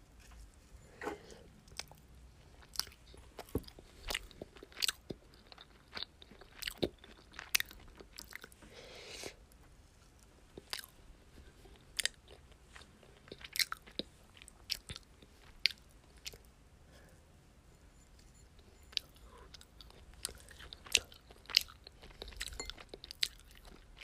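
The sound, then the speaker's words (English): Biting and chewing food: many crisp crunches and soft, wet squishes come in an irregular rhythm throughout, each sharp bite standing out against quiet gaps, with no talk. “I'm just gonna eat this and it tastes good, okay?”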